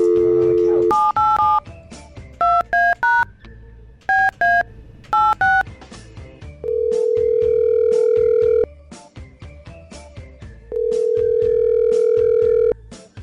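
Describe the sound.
Touch-tone keypad beeps dial a phone number in quick bursts, followed by two long, steady ringing tones separated by a pause, with no voices.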